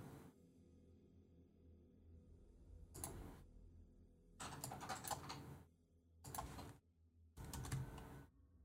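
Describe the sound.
Keyboard typing as a slash raid command is entered in a chat, in several separate bursts of quick, light key clicks with pauses between them, over a quiet background hum.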